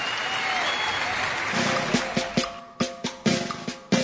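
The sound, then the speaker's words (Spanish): Audience applause at a live Spanish-language event, a dense wash of clapping that thins toward the end into a few sharp, separate claps. “fuerte aplauso para Gustavo Santolalla.”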